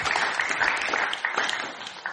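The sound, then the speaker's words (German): Applause from an audience during a church worship service, thanking a family: a sustained patter of many hands clapping, fairly loud and slightly uneven, with individual claps audible in the mix. “Herzlichen Applaus.”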